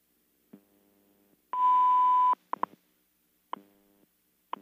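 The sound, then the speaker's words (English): Time signal tone for coordinated universal time: one sustained, steady high beep set among several short, sharp pips and ticks, quiet otherwise. “At the tone, 0 hours, 29 minutes, coordinated universal time.”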